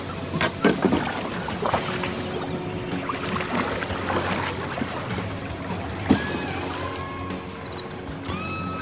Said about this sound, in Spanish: sin pensar se subió a este y remó mar adentro.